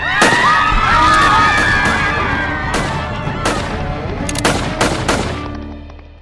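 A burst of gunfire after an order to fire during a workers' revolt drama set in Málaga: many sharp cracks, scattered irregularly and some in quick clusters, over a steady noisy background.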